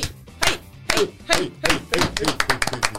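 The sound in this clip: People clapping in a studio: sharp, loud hand claps in an uneven series, spaced out at first and then coming faster, with a little talk in the background.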